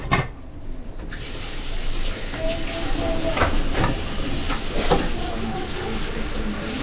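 Water runs steadily from a tap while food is prepared, a continuous even hiss and splash with a few faint clinks through it.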